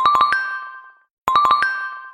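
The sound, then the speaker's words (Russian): Electronic telephone ringtone sounding insistently: a bright tinkling melody of quick chiming notes plays, stops for a brief pause, then repeats identically, with no voices. “меня отвлек телефонный звонок”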